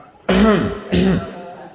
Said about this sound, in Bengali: প্রমথেশ একবার গলা খাঁকারি দিল।